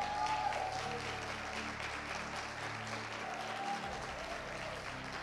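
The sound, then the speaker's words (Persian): Applause from a church audience during a service, dense, steady clapping that holds at an even level throughout. “دست بزنید ببینم چقدر.”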